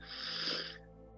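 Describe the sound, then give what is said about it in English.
A single deep breath drawn in through the nose during a meditation makes an airy, hissing inhale lasting under a second, then fades to a quiet, steady drone. “Let's do it that together deep breath in through your nose.”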